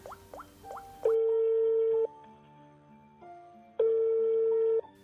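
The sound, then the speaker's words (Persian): Telephone call tones while ringing a friend: a few quick chirping tones, then two long, steady ringing tones separated by a short pause. “بذار یه زنگ بزنم به دوستم سعید دوست صمیمیمه شاید بتونه کمکم کنه”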